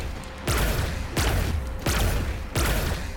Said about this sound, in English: So let's shoot the gun